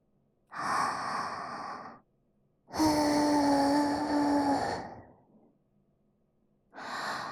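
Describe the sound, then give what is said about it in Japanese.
Breathy puffs of air blown into an ear after ear cleaning: three soft, drawn-out blows separated by silence. The second is the longest and the last is cut off. “よし、そろそろいいかな。ふうするぞ、ふう。”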